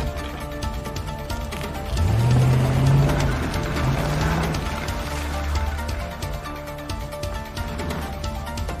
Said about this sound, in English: He runs to one of the black SUVs and starts chasing after David on two blown-out tires.